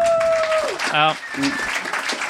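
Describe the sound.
Audience applause, a continuous patter of clapping at a steady level, with voices heard over it.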